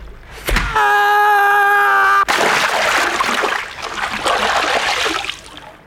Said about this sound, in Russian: Дает первому поддых, выбрасывает за перила в реку.